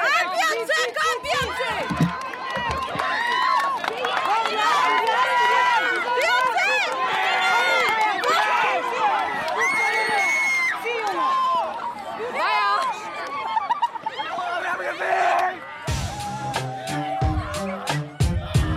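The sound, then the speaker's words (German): A school class cheering after winning the relay race and the whole sports day: many high-pitched young voices shouting and whooping in a loud, continuous, excited din. “Wenn eine Klasse im Staffellauf und letztlich das gesamte Sportfest gewinnt, dann klingt das ungefähr so.”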